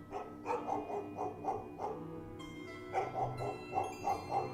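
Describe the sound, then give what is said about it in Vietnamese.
Dogs bark in the distance late at night while the neighbourhood sleeps. Many short, regular barks come in two runs separated by a brief pause, moderately loud and with no voices. “11 giờ đêm, khi hàng xóm đã chìm sâu vào trong giấc ngủ, xa xa vọng lại tiếng chó cắn vu va vu vơ.”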